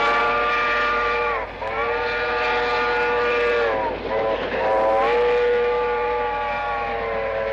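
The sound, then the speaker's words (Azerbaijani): A departing steam train sounds its whistle: a loud, sustained, multi-tone wail that lasts several seconds, dips briefly twice, and sounds again each time. “Tarix treni yola düşür.”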